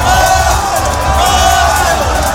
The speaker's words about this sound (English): There's been fireworks and pink smoke, and everyone is cheering.